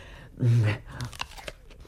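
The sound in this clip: A crisp, loud crunch as someone bites into an apple to taste it, followed by several quieter chewing sounds.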